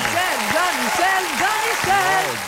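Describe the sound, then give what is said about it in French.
A studio audience claps to welcome a soccer analyst on a morning show, a steady wash of applause running under a man's animated talk throughout. “Notre analyste soccer, mesdames, messieurs, accueillons-le comme il se doit, Monsieur Jean-Michel Collet.”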